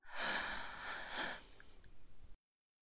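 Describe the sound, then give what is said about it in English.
A deep breath taken during a guided relaxation exercise: one long, airy rush of breath that swells and then fades, heard alone with no talking. “take a few deep breaths with me. Inhale.”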